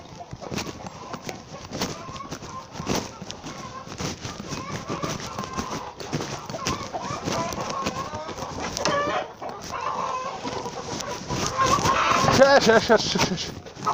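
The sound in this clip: Chickens cluck and cackle busily throughout, mixed with people talking, with a louder burst of activity near the end.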